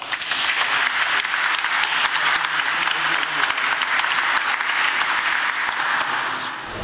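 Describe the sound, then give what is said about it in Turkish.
Audience applause at a bookbinding and restoration exhibition ceremony at the Tophane-i Amire Culture and Art Center in Istanbul: dense, steady clapping that holds for about seven seconds and eases slightly at the very end. “Alkışlarınızla.”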